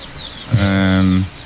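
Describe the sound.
A chicken gives a single drawn-out cluck, a steady harmonic squawk lasting under a second, heard alone over a faint background.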